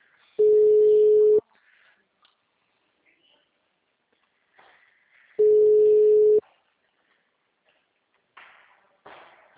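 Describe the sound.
Ringback tone while placing a phone call: two long, steady, mid-pitched beeps about five seconds apart, with quiet gaps and a few faint soft noises afterward.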